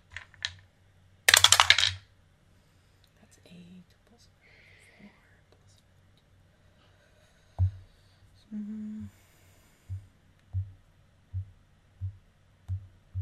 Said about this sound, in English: And now we are going to do double the damage. So I roll this dice twice.